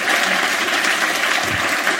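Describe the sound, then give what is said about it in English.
Audience applause at a live comedy event, a dense, steady wash of clapping that holds at an even level throughout, with no voices standing out. “I'm not proud of getting a round of applause in the word cunt.”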